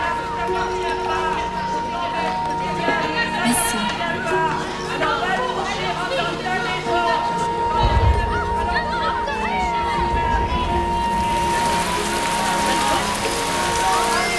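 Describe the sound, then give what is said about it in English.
A sudden rain downpour falls on a sidewalk cafe in the south of France. A steady hiss of rain runs beneath people chattering and grows louder and brighter toward the end. “A sudden downpour forces the patrons to retreat from the sidewalk cafe.”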